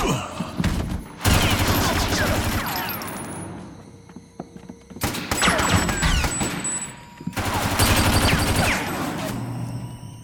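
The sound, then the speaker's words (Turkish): Machine gun fire rattles in three long, loud bursts of rapid shots, separated by quieter gaps. “Duyduğum makineli tüfek sesi mi Smith?”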